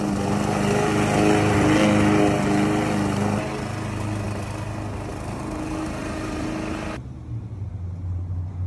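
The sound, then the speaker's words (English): A gas push mower cuts grass with a loud, steady engine drone carrying a buzzing harmonic whine. The level dips slightly partway through, and the tone shifts near the end as the mower keeps running. “But hey, she, she did a good job with a, with a regular push mower, a regular gas push mower. She did a fantastic job.”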